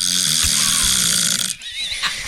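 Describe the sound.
Snoring from a recorded sample of a person who snores more than three nights a week with a risk of breathing pauses; a loud, harsh, rasping drone that runs nearly continuously and dips briefly near the end.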